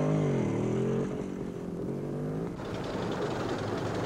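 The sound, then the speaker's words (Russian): Four German motorcycles with sidecars drive past a tank, their engines a loud, steady drone with a wavering pitch that eases after the first second and turns rougher and noisier toward the end. “Мимо танка проезжает 4 немецких мотоцикла с коляской.”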